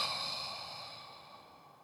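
A deep breath is blown out during a chakra breathing exercise, a faint, airy, hissing exhale that slowly fades away over about two seconds.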